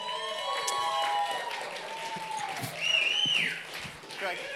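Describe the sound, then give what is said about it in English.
An audience applauds panelists coming up to the stage, with steady clapping, high whoops and whistles, and voices mixed in. “So if you're on the panel, why don't you guys give it up for Yona, for Brant, and for Ansley.”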